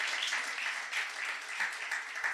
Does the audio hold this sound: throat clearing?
no